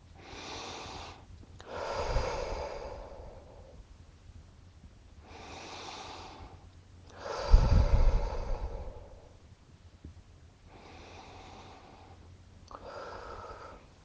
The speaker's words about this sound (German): Und jetzt nimm noch zwei oder drei tiefe Atemzüge.